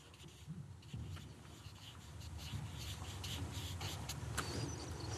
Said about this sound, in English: and now I'm drawing a circle, and within this circle is myself.